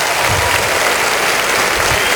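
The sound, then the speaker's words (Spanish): A church audience claps their hands in applause to God during a worship service, loud, dense and continuous clapping that fills the whole moment without a break. “Ahora dele un aplauso con tus manos a Dios.”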